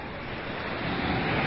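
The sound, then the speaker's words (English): Wind and tide at the sea make a steady, broad roar of surf and gusting air, loud and continuous throughout. “Listen, James. What? The wind and the tide.”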